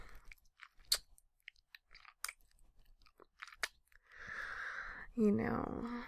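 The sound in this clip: Chewing while tasting food: wet, crunchy bites and smacks come in an uneven, scattered run, followed near the end by a louder, breathy vocal sound.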